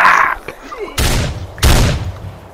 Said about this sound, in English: Shot point blank.